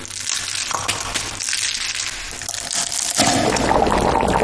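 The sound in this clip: Liquid simmered for over five hours is poured into a braising brine of ham, soybeans, duck eggs and pork spine bones. It starts as a noisy crackling wash, then surges into a louder, fuller splashing rush.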